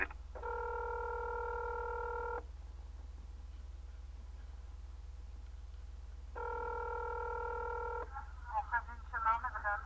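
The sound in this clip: Telephone keypad tones on an automated phone line: two long steady electronic beeps separated by a pause, over a low constant hum, with a voice briefly audible at the end.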